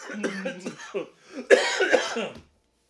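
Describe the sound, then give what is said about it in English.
Coughing from someone who inhaled spit down the windpipe: a run of rough coughs and throat-clearing sounds, with the loudest, harshest burst in the second half before it stops abruptly. “I breathed in spit down my windpipe and can't mute because we're on headsets.”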